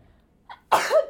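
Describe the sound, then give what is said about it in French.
A single sneeze: a faint short intake of breath, then a loud, abrupt burst that trails off quickly. “Pardon. À tes souhaits.”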